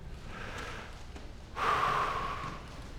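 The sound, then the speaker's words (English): An audience draws a collective deep breath during a sermon, a soft, airy rush of inhaling. It swells suddenly after a quiet stretch, then fades over about a second, faint overall. “We're just taking a collective deep breath,”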